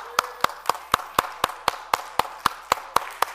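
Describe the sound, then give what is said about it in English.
Church audience clapping hands together during a sermon on Psalm 47, sharp claps landing in a steady, even rhythm of about four per second, thirteen strokes in all. “Hey, we're not clapping our hands because somebody sang a beautiful song and clapping for them, but what we're doing is we're clapping because of the truth that's been proclaimed.”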